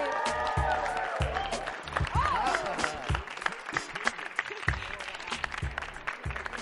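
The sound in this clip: Applause and cheering from an audience welcoming an NFL player as a guest at a Halloween show; a voice talks at first, then dense clapping swells and continues with scattered louder claps.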